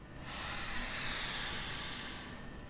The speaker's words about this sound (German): Ich drücke jetzt mal auf den Tisch drauf. Diese Luftpolster gibt nach.